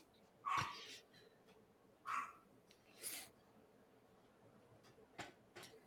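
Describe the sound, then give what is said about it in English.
A dog barks a few times, short faint yelps spaced roughly a second apart, with a softer one later and low hiss between them. “Even the dog agrees with Ronda Rousey.”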